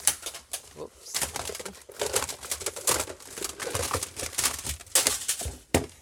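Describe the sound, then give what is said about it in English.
Rustling and crinkling as someone rummages through an interview archive to find and handle a tape. The bursts are uneven and busy, with soft clatters and shuffles and no voices. “Okay, let me find today's tape. It's underneath.”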